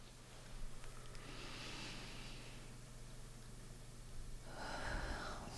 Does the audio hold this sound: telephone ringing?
no